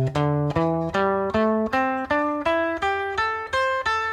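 Pentatonic scale on guitar, the basic rock and roll lead position: eleven evenly spaced plucked notes climbing steadily in pitch, each with a bright attack and short ringing sustain, heard alone.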